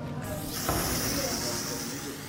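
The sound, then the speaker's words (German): Steady hissing of a chalk spray can spraying onto a wall during a street art session, a loud continuous hiss that starts early and lasts nearly to the end. “mit Kreidesprays ihre eigenen Namen an die Wand sprühen”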